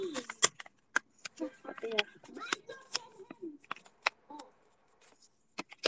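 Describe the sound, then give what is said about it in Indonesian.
Paper being folded over and over: many quiet, crisp crinkles and sharp rustling snaps. They come in irregular bursts with short pauses between them. “Bentar, kalian kedengeran gak sih ini aku melipat-lipat kertas? Apakah kalian bisa mendengar aku melipat-lipat kertas?”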